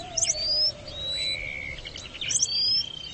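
Male and female Jackson's widowbirds call loudly during a courtship display in which the black male leaps in front of the brown female. Sharp high chirps and thin whistled notes come in bursts near the start and again near the end.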